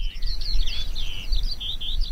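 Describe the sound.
Skylark song: a rapid, continuous, high-pitched warbling stream of trills and chirps that runs the whole clip without pause, over a steady low rumbling background.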